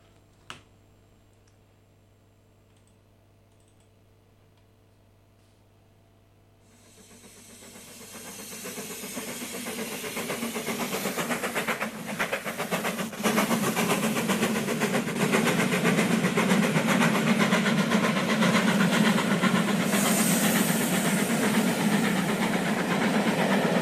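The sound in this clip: A train runs on rails as a radio transition effect: after several seconds of near silence broken by a single click, a rumbling, clattering roar swells in and holds loud and steady to the end.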